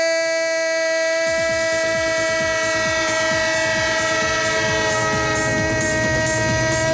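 A train horn holds a loud, steady multi-tone chord throughout. After about a second, rhythmic rail clatter of wheels over track joins beneath it and keeps on to the end.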